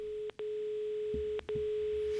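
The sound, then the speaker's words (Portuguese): Phone-line tone after a dropped call: a steady, faint, single-pitched tone that cuts out briefly twice, then resumes. “Não conseguimos a conexão”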